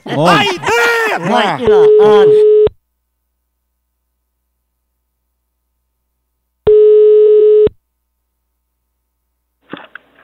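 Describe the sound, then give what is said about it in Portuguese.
A telephone ringback tone sounds on an outgoing call to a funeral home client about a prepaid funeral plan: two steady, mid-pitched beeps about a second long, separated by a long silence. A voice is heard just before the first tone. “Tá chamando. Tá chamando.”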